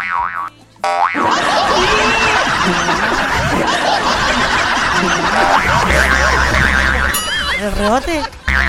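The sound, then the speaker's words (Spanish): Cartoon boing bounce effects: springy, wobbling tones that waver up and down, repeated and layered over snickering laughter, loud and busy throughout. “El rebote.”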